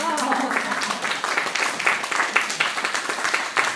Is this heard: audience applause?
yes